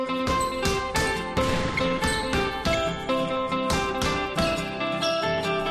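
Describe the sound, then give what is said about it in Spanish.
Instrumental theme tune of the Unicaja Málaga basketball team on sports radio: loud, steady and rhythmic, with punchy beats, sustained tones and bright jingling highs throughout, no voices. “Somos la emisora del Unicaja de Málaga. La sintonía del Unicaja empieza.”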